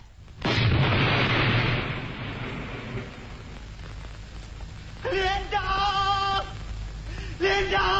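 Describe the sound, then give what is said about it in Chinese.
A landmine explodes at the foot of a mountain, a loud, deep boom that opens abruptly and trails off into a long rumbling decay. “不一会儿，山脚下传来爆炸声，”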